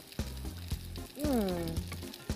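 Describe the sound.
A potato rösti fries in a pan with a steady sizzle and crackle, punctuated by a few sharper clicks and pops and a brief tonal sound in the middle.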